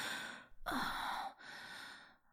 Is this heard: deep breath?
yes